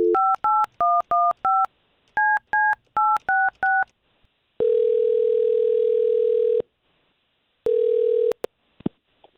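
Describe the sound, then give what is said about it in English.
Telephone keypad tones as a number is dialed: quick dual-pitched beeps in two rapid bursts, then a long steady tone and a shorter one, with no talk. “all we're going to do here is take this number that you provided us for Jessica, and we're going to call her”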